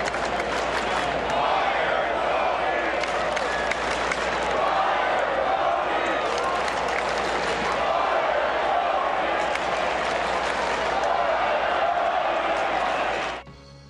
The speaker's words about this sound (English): Ugly. It's getting ugly out there. When you hear Fire Tony chants at a stadium, it is getting ugly.